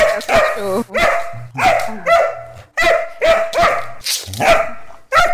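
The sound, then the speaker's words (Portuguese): Dog barking loudly and repeatedly, many sharp barks in quick succession with short gaps between them. “É cachorro?”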